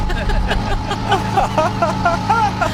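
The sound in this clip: A cargo moped's small engine runs after a hand-cranked start and pulls away, giving a steady, loud rattling chug with people talking over it.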